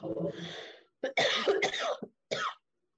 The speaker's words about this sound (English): Sorry, funny enough, I'm coughing.